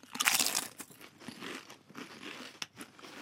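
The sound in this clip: Potato chips with umami seasoning crunch during a chip taste test, giving dense, irregular crisp bites and crackly chewing, fairly quiet and without speech.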